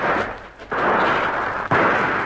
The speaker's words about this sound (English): Hurry, Biggles. Those shots are going close.